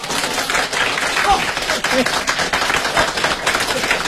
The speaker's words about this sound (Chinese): 大家给他鼓鼓掌